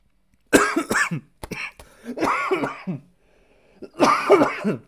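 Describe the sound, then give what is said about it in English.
Repeated harsh coughs and throat-clearing from a person with a cough. They come in several clusters of bursts separated by short pauses, loud and without speech. “I got outside of the cough, I feel all right, but I apologize for that.”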